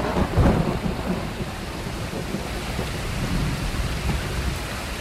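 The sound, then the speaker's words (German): Steady rain falls with a low rumble of thunder, most prominent near the start, under a dense, even wash of rainfall. “Ein sehr vertrautes Geräusch im Jahr 2017. Wenn ihr es nicht kennt, solltet ihr mal drüber nachdenken, wieder das Haus zu verlassen. Unser Gevatter Regen.”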